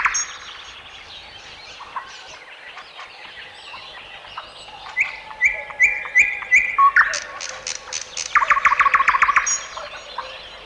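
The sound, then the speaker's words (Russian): A dawn chorus of many forest birds sings and chirps at once, with overlapping calls, whistles and chirps that grow louder after the first few seconds and a rapid, bright trill near the end. “Все птицы поют, кричат и щебечут одновременно. Такой хор бывает только на рассвете.”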